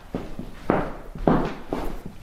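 Footsteps walking through an old artist's house whose interior has stayed nearly unchanged for over a century. A steady series of soft, evenly spaced thuds sounds alone, with no talk.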